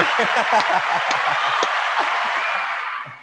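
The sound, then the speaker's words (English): Applause rises from an audience celebrating an award win: dense, steady clapping with chuckles and scattered voices mixed in, thinning out and fading toward the end. “So I think it's a big round of applause.”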